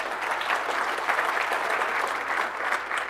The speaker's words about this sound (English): Somebody was clapping on the room. That's always good.